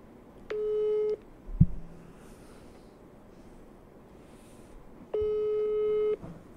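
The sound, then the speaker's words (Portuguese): Ringback tone while phoning someone for a live show: two steady mid-pitched tones of about a second each, separated by a long pause, with a brief thump between them over faint background hiss. “Eu vou ligar no Costenaro aqui, agora.”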